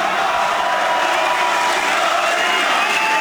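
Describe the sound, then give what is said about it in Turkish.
Crowd cheering fills a packed hall at an AK Party gathering during Erdoğan's speech, a dense, loud, continuous roar that holds steady throughout with no single voice standing out. “Salonda coşku had safhadaydı. Başkan Erdoğan kürsüye çıktı. Konuşması sık sık tezahüratlarla kesildi.”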